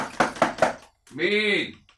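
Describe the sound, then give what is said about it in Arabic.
Three sharp knocks on a wooden house door in quick succession, followed by a voice calling out. “مين اللي بيخبط على باب الدار؟”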